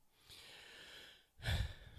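A person takes a quick, soft breath heard as a brief airy rush late in the quiet stretch, preceded by faint low breathing noise.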